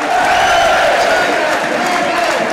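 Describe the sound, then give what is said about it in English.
A Wrexham football crowd cheering inside the stadium before a match against Boreham Wood, a loud, continuous roar of many voices with sustained tonal shouts, steady throughout. “So, as the Wrexham crowd starts to get”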